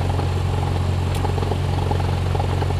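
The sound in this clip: A light aircraft's engine runs during takeoff on runway 13. It is a steady, loud droning roar with a strong low hum underneath and no clear change in pitch.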